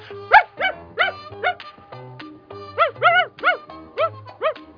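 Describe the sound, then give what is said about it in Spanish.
A house dog barks and whimpers in a run of many high, whiny yelps, with a brief lull midway before the yelping resumes in quick bursts. “¡Chito perro!”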